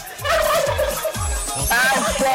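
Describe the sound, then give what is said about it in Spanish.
Turkey gobbling played as a sound effect: a loud, rapid, warbling gobble with a trilling pitch, repeated over steady low thumping beats. “Correcto, los pavitos. Él quería que le colocara el pavo. Te lo estoy colocando para que sea serio.”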